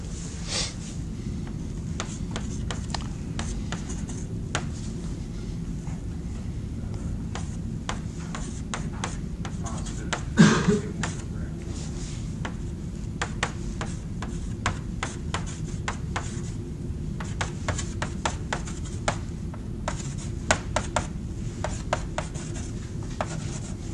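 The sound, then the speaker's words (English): Scratchy writing strokes as an equation of motion is written out: many short taps and scrapes over a steady low rumble, with one louder knock about midway and no talk. “So let's take and write that guy.”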